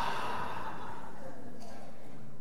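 Deep breathing from a church audience, a soft, diffuse breathy hiss of many inhales and exhales blending together at low volume.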